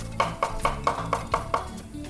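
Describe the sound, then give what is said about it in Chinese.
A knife chops ginger into small pieces with seven steady, evenly spaced knocks, crisp and fairly quiet, with no talking. “好，我们来切姜。 好， 姜等一下爆香，一样把它切成姜粒。”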